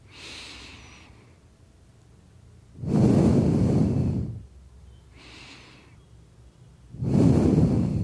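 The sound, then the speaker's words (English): Slow, deep breathing from a calming breathing exercise: soft, airy inhales alternate with louder, fuller exhales, each lasting about a second or more, with quiet pauses between breaths. “Take a breath, take a deep breath, like go up to 4 seconds and go down 4 seconds, like just like that.”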